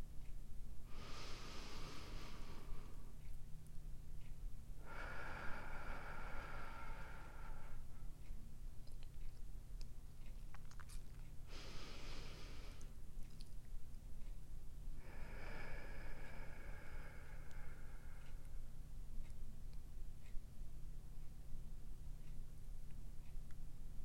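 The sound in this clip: Slow, deep relaxation breathing for sleep: four soft, airy breath sounds in two pairs, separated by long quiet pauses. It is faint, with no talk.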